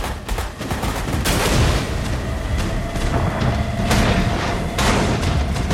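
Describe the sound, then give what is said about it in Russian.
Naval guns of the destroyer Greyhound firing on a submarine in a war film, heard as a loud, dense barrage of overlapping blasts and rumbling explosions with no pause. “Прямое попадание одного из орудий Грейхаунда. Подлодка окутывается черным дымом и тонет.”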